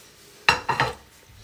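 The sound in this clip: Dishes and cutlery clink as food is arranged on a big plate: a few short, bright clatters in quick succession, then quiet.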